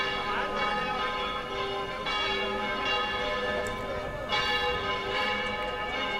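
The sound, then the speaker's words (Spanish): Church bells ring in a loud, continuous peal, with many overlapping strikes blending into a dense, steady wash of metallic tone. “De hecho, dejamos sonar porque es un sonido solemne, ¿verdad? Recuerda mucho al Corpus, ¿verdad? Mira que las campanas suenan en muchas ocasiones durante el año,”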